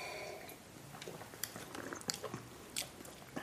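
Someone sips a drink being tasted: faint, wet slurping and mouth noises in a few short bursts, with no talk.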